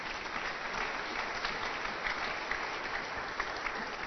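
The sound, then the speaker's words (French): A church audience applauding during a worship service, a dense, continuous clatter of many hands that stays steady and even for the whole stretch, with a few sharper claps standing out. “On peut acclamer le Seigneur pour les voitures.”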